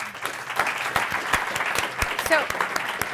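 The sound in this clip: An audience applauds to welcome panelists at a discussion on apprenticeships and workforce development: brisk, continuous clapping with sharp individual claps standing out, steady in loudness for the whole stretch.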